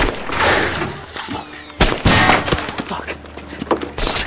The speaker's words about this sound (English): Elsewhere, bullets ricochet off Burton's turret.